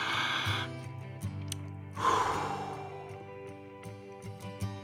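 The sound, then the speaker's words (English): A deep breath is taken during a guided meditation: a soft, airy inhale and exhale, faint against quiet, sustained background tones. “Let's take another breath.”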